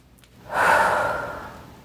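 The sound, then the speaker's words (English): One big deep breath during a guided tapping exercise, a soft, airy rush that swells quickly and then thins out over more than a second, heard alone without talk. “Big deep breath.”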